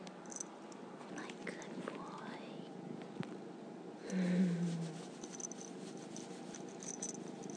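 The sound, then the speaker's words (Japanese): A cat purring, a steady low rumbling buzz that runs throughout at a soft level and swells briefly louder near the middle. “ゴロゴロ言ってね、ゴロゴロゴロゴロゴロゴロゴロゴロ”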